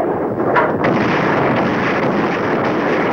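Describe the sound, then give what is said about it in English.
Heavy artillery fire in a night-time wartime barrage: a loud, sustained roar of dense blasts, with a couple of sharper bursts near the start and no clear gaps between shots. “Heavy artillery fire streaks the night sky.”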